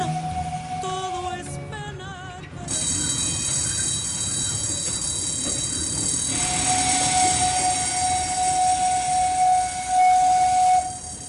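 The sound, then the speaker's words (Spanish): A freight train carrying Central American migrants through Chiapas, Mexico, toward the northern border moves slowly with a steady rolling rumble. High, piercing wheel squeals ring over it throughout, peaking sharply near the end, with no voices. “El tren se mueve lento.”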